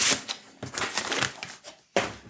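A vinyl record is taken out of its sleeve: soft paper rustles and crinkles come in several quick bursts, ending with a sharper scraping slide.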